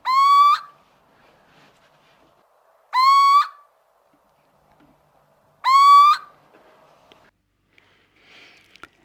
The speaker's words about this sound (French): Donc on a utilisé le système de repasse, en poussant effectivement le cri de la chouette.